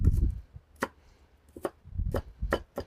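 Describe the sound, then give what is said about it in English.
A knife slicing and chopping fresh onion on a board: a few sharp, irregularly spaced cutting strikes mixed with softer low thuds, fairly quiet and with no voices. “I might just get a little slice of onion here. Not a giant onion guy, but fresh onion's okay.”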